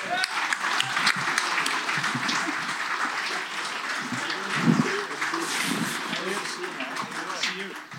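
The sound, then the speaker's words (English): Audience applause greets the introduction of a former NHL player who now coaches the Victoria Royals, at a live show in Victoria. Dense, steady clapping continues throughout, with crowd voices mixed in. “Please put your hands together for James Patrick.”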